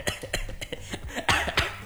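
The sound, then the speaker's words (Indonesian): Coughing on air during a live radio show: a rapid run of short, fairly faint coughs and throat-catching bursts in quick succession, with a slightly stronger hack near the end. “Batuk on air. Batuk on air ya deh.”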